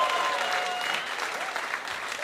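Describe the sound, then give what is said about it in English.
An audience applauds a performer on stage, a dense, steady wash of clapping that holds at a fairly loud level throughout and eases slightly toward the end. “again, huge round of applause for Hannah, everyone who gets on the stage, makes it work.”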